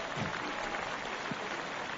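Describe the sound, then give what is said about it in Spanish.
Steady applause from the audience at a Roland Garros tennis tournament ceremony: an even, continuous patter of clapping, fairly faint, with no voices above it. “Le aplaudo más que en el Palau.”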